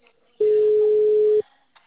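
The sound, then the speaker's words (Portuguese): A telephone tone sounds during a call: one steady mid-pitched beep lasting about a second, loud and clean, with near silence before and after. “Não atende, que eu tô na ligação.”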